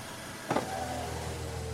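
A car's power window motor whirs over a steady low engine hum, opening with a brief louder knock before the even drone carries on.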